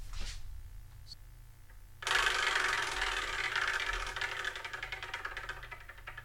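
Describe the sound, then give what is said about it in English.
A prize wheel spins with a dense run of rapid ticks and rattles. It starts abruptly after about two seconds of near silence, then continues steadily and fairly loud until the end. “What I'm going to do is I'm going to spin the Wheel of Manga.”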